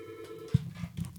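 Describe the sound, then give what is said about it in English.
A telephone on a small switchboard rings with a faint, steady electronic tone over a low background hum, fading after about half a second. “oh, hey, phone's going off here. Steve, you want to grab that?”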